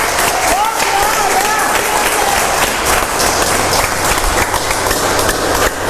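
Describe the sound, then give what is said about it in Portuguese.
Sustained applause from a church audience at a Portuguese-language service, dense continuous clapping with a voice speaking over it. “aplaudam ao Senhor, meus irmãos.”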